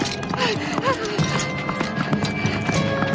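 Hoofbeats of a running horse chasing a fleeing woman in a 1983 adventure film, a rapid, continuous clip-clop that stays loud and even throughout, mixed with other film sound.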